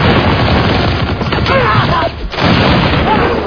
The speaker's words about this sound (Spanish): Los tagalos respondieron con un intensísimo fuego.